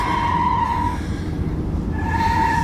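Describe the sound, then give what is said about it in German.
Tires squeal as a car skids through a curve on a steep serpentine road. Two high, steady screeches are separated by a short gap, over a constant rumbling road noise. “Am Tag von unserem Plan, wenn ich da in die Kurve komme, fahre ich nicht langsamer. Er fährt direkt auf das Geländer zu.”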